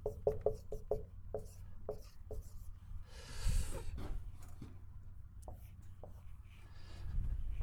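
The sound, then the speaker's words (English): A dry erase marker writes on a whiteboard during a class: a rapid run of short, crisp squeaky strokes, then slower, spaced strokes and a longer scratchy scrawl, moderately loud throughout. “I have my own designated dry erase marker. These are supposed to be really good.”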